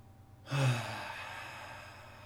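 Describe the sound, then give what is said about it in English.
A group of people taking a deep breath together, a sudden breathy whoosh of many voices that peaks and then slowly trails off over about two seconds. “If you need to take a deep breath, we'll do one right now together.”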